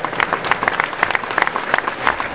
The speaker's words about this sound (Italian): Un applauso a Claudio De Biasio.